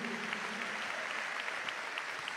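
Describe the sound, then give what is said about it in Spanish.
Steady applause from a church audience during a service, dense and even from start to finish with no clear pauses. “Denle un aplauso al Rey.”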